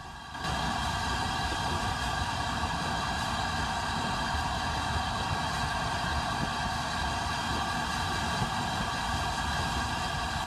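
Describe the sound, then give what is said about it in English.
A train slows as it passes tanker carriages parked in a siding, a loud, steady rumble and mechanical hum with faint tonal whine, no voices. “The train slows as it passes tanker carriages parked in a siding.”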